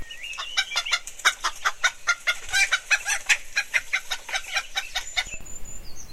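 Hens clucking in a fast, steady run of many short, sharp, high-pitched clucks, fairly loud and continuous, with no talk over them.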